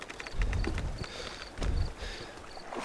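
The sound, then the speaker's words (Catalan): Oars row a boat carrying soldiers toward shore. The strokes come as a couple of quiet, low, heavy swells of water with faint knocks and splashes between them. “Estic concentrat en remar.”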